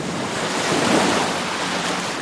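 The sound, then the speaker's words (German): A sea wave crashes around a ship as a loud, broad rushing wash of water. It swells slightly in the middle and then keeps hissing steadily, with no voices. “da kommt eine Welle.”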